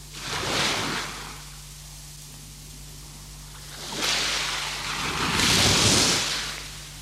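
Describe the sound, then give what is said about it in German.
Sea waves roll in as broad hissing surges that swell, wash and recede, two clear surges rising out of a softer steady wash, with no voices. “Das Meer.”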